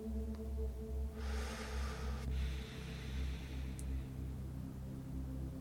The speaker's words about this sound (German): fülle die Lunge ganz mit Luft mit dem Einatmen und mit dem Ausatmen. Lass die Luft aus dir herausfließen.